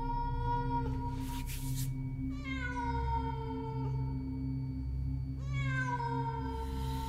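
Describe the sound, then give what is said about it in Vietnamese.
A cat yowls mournfully at night in a small village. It gives a few drawn-out, wavering wails with sliding pitch over a steady low drone. “Lúc này mơ hồ có tiếng con mèo, nó kêu lên thê thiết, vọng đi khắp cả thôn nhỏ.”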